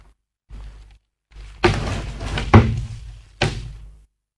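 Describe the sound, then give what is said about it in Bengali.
A door being shut: a few heavy thuds and knocks with rustling, creaking movement between them, ending in a final firm slam before silence. “বৌমা, দরজাটা বন্ধ করে দাও। কি হলো, শুনতে পাচ্ছ না? এই তো দিচ্ছি।”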